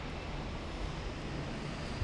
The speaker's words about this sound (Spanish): Vamos a dejar que pase el avión.